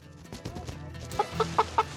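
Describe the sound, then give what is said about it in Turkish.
Chickens cluck as they are caught to be moved into a new coop addition: a run of five short, squawky calls, evenly spaced in the second half, follows quieter rustling. “Tavukları kümese taşımaya hazırız.”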